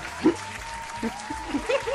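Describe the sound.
Faint audience applause, a soft, even patter of clapping under brief voices.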